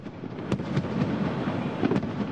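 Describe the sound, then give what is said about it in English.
Fireworks go off over the Saigon River during a citywide celebration, with a few sharp bangs and pops over a continuous crackling, rumbling wash. “Fireworks over the Saigon River, part of the celebration marking the day 30 years ago when North Vietnamese troops and Viet Cong guerrillas entered the city.”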